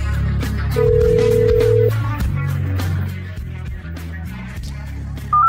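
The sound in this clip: A telephone call is placed. One steady ringing tone sounds for about a second over background noise, and a short, higher beep follows at the very end.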